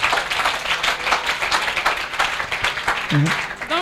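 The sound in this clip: An audience applauding and acclaiming God in worship, with dense, steady clapping running throughout and a voice rising briefly above it near the end.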